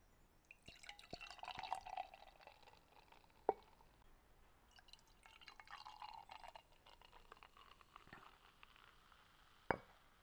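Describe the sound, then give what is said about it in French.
A blonde beer is poured into a glass, a quiet, continuous trickling and fizzing. Two sharp clinks stand out, one midway and one near the end. “Donc, je vais l'ouvrir. Je verse.”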